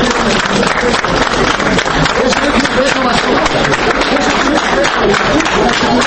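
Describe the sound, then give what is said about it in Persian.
Loud applause and cheers of welcome at an airport as a beloved poet comes out through the arrival gate: continuous dense clapping mixed with voices calling out. “برابری از دروازه فرودگاه بیرون آمدن بازار صابیر، صدای بلند کفزنی و نداهای خوش آمدید به وطن، نوری دیده تاج سر، گفتنها به فضا پیچید.”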